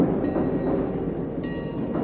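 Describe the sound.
Heavy rumbling and clatter of a subway train passing overhead on an elevated line above a street phone booth, a loud, steady roar throughout with a faint high whine near the end.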